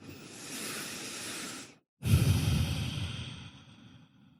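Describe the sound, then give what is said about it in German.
Deep breathing in and out, as in a guided meditation: a long, soft, airy breath, a brief silence, then a second fuller breath that slowly fades out. “atme ein paar Mal tiefer ein und aus”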